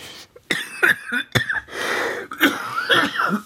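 Several dry coughs from a person with a slight cold, short harsh bursts in quick succession with a throaty rasp between them, loud and close.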